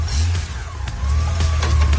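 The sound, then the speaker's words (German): A Harley-Davidson motorcycle riding away, heard as a deep, steady engine rumble with a low droning pitch that holds loud throughout, with a few faint clicks over it. “Und da rauscht die davon, die Harley.”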